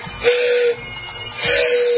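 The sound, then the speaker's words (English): Two toots on a hand-blown train whistle, each a steady, reedy tone with a breathy edge. The first lasts about half a second, and the second follows after a short pause and carries on to the end. “Is that a train whistle?”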